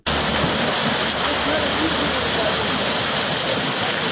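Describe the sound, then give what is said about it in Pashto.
Water rushes and splashes loudly and without a break as an araht water wheel lifts it from a canal in Kandy village, Nurgal district. The canal was dug from the Kunar river. “د نورګل ولسوالۍ اړوند د کانډۍ کلي کې د ارهټ په وسیله له ویلې اوبه پورته کیږي”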